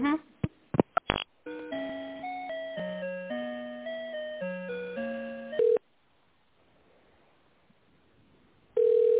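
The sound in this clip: Telephone ringback on an unanswered call: after a few sharp clicks, a stepped electronic melody of steady tones plays, then a pause, then a plain steady beep returns twice.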